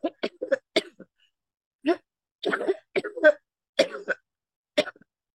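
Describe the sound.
Coughing from a tickle in the throat comes as several short, dry bursts and throat-clearing sounds, spaced irregularly with brief silences between them.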